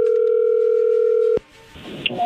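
Telephone call connecting tone: a steady, even electronic tone holds for over a second, then cuts off with a sharp click, leaving faint line noise.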